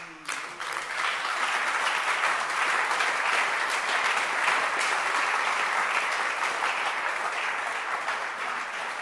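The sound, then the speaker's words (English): Audience clapping for a man at a gathering starts abruptly and holds as a dense, steady applause for about nine seconds, easing off only slightly at the end. “That is why I want us to clap for our brother Red.”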